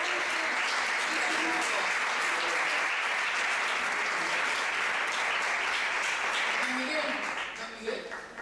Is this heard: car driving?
no